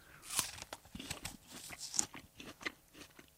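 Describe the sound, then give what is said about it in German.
Crisp crunching bites into an apple eaten with the skin on, a few sharp crunches standing out among softer chewing, all fairly faint. “Also wir essen natürlich, übrigens für euch die Info, ne? Wir essen natürlich direkt vom Apfel mit Schale.”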